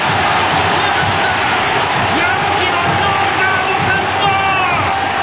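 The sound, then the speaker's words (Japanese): Crowd cheering and shouting at a boxing match, where a fighter fights with both hands down and no guard. The roar is dense and steady and holds at an even loudness throughout. “観客からはこれが見たかったという声援が飛んでいます。”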